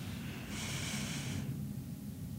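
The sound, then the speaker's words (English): A deep breath is drawn in through the nose during a guided breathing exercise, one soft, airy inhale lasting about a second, quiet and alone. “Take a deeper breath.”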